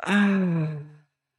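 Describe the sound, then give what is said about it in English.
A single slow exhale through the mouth during a breathwork exercise, a breathy, slightly voiced sigh lasting about one second that tapers off into silence. “Inhale through your nose. And exhale through your mouth.”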